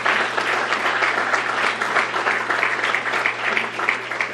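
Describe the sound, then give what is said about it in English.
Audience applause at a dinner gathering: a steady, dense wash of many hands clapping that holds at even loudness for several seconds, with a faint low hum beneath. “And if you will just give Sandy Reef some applause.”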